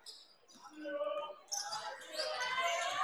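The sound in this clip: A basketball is dribbled during a game between the Bulldogs and Generals: repeated bounces thump along under a commentator's continuous play-by-play.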